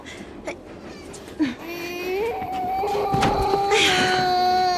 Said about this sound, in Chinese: 哎呦哎呦，乖孩子啊。别哭了